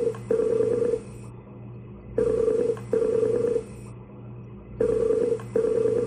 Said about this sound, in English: Skype quit unexpectedly. My iPod is also ringing. Hear that? Yeah, that's really fucked up. It just started ringing and nothing hung up.